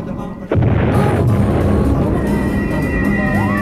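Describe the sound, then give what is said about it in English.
An experimental atomic bomb test blast erupts in a sudden loud boom, followed by a deep, sustained roaring rumble that continues steadily. “The sound you are hearing is the final countdown to an experimental atomic blast, the most awesome, devastating power known to mankind.”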